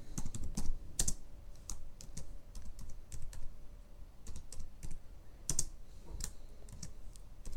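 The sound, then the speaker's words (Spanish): Someone types on a computer keyboard into a document, producing an irregular, rapid clatter of key clicks with several sharper, louder strokes scattered throughout and no talking. “Lo único que hay que hacer para comenzar a trabajar un documento en Google Docs es comenzar a escribir.”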